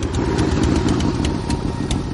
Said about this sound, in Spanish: Dos hombres en moto se paran delante de su casa.